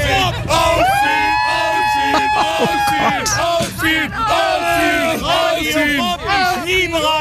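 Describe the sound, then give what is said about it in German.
A crowd of festival fans, who have waited a long time in the blazing sun for the gates to open, cheers and yells loudly and without a break, with many overlapping voices whooping and shouting. “Und die Leute, die stehen hier tatsächlich schon richtig lange in der prallen Sonne und haben auch richtig Bock. Ich halte mal ganz kurz das Mikro rein, wie das so klingt, wenn die hier stehen.”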